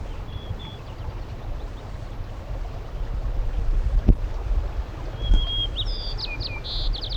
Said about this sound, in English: White crowned sparrow